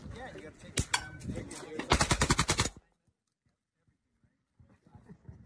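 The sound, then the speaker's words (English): A fully automatic shotgun fires rapid, heavy booming blasts, with talk and scattered shots first, then a tight burst of many shots before sudden quiet and faint voices. “Yeah, that's not my trigger finger. That's actually a fully automatic shotgun.”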